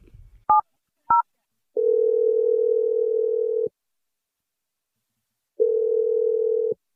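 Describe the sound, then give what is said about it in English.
Telephone tones while calling a number. Two short, bright dialing beeps come first, then two long, steady tones separated by a silent gap. “I'm going to dial his number. Let's hopefully he picks up.”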